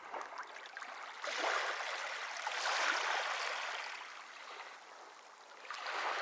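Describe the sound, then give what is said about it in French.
River water flows past a quay, carrying driftwood along. It makes a faint, steady rushing wash that swells and ebbs gently, with no voices. “Restons à quai sans nous lasser du spectacle de l'eau qui passe à nos pieds, charriant des bois flottés qui viennent s'accumuler contre les jetées d'un port.”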